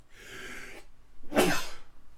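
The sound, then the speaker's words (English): A single sneeze from someone out in bitterly cold, windy weather: a breathy, hissing intake, then a sharp, louder explosive burst. “Oh, he's sneezing again.”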